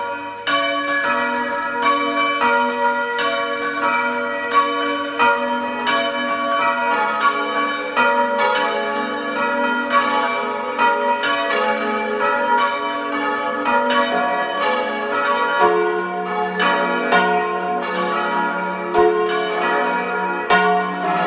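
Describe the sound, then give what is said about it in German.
Church bells of the Augustinian canons' abbey church at Neustift near Brixen in South Tyrol ring out at noon, a loud, continuous peal of many overlapping strikes and lingering tones with no voices. “Es ist 12 Uhr. Sie hören die Glocken der Stiftskirche des Augustinerchorherrenstiftes Neustift in Südtirol.”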